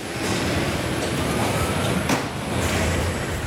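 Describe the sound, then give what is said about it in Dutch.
An electric cart driving through a flower auction gives a steady, loud rolling rumble with a continuous mechanical hum, unbroken and with no voices over it. “Verslaggever Nick Wouters op de elektrische wagen bij de bloemenveiling.”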